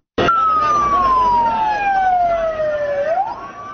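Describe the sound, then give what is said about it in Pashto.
Ambulance siren as the wounded are carried away after an attack on a university in northwest Pakistan. A loud wail slides slowly down in pitch for about three seconds, then starts to climb again near the end. “امبولانس های حامل زخمی ها راهی شفاخانه ها شدند.”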